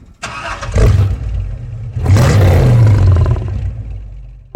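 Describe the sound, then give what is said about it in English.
A lion roar layered with a car engine starting, combined into one sound effect: two long, loud, low growling bursts with a rough engine-like rumble beneath the roar. “And here's a roaring lion. Now, this is what it sounds like when we layer those two together.”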